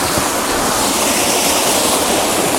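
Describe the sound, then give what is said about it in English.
A river rushes steadily with a dense, even wash of flowing water that holds a constant loud level, with no voices. “So this is me making my way back down the river.”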